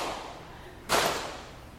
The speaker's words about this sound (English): You can clap your hands if you want, but I only have one hand, so I'm going to slap my knee.